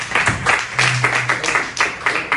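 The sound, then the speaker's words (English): Audience applause fills the room with a dense wash of clapping that swells and dips in rhythmic pulses, with faint voices mixed in. “Let's give a round of applause to Mr. Amoshi.”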